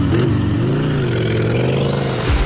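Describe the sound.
A big motorcycle engine revs loudly and steadily, its throaty drone wavering slightly in pitch throughout, with a brief surge near the end.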